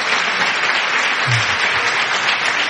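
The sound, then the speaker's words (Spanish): Applause from a radio programme audience, a dense, even patter of many hands clapping that continues steadily throughout. “acabas de arrancar el aplauso de un programa de radio.”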